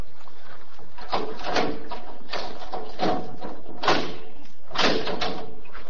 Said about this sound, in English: what inferno awaits him on the other side of that steel door. All right. Open it up.